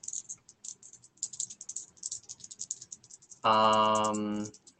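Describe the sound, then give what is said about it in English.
A mess of dice, including percentile dice, rattles and clatters as someone searches through them during a tabletop roleplaying game. Light rapid clicks run for several seconds, followed by a short, louder harmonic tone. “I need to find my D100s and my mess of dice”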